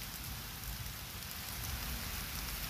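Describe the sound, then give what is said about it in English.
Rain falling steadily, with dense pattering drops merging into a continuous soft hiss that stays even throughout, no voices. “the drops of the rain.”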